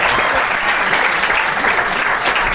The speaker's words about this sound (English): please applaud now